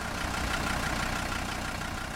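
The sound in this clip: A car engine idling as a steady, even rumble mixed with broad hissing noise. It stays constant in level throughout without any change in pace, and no voices are heard.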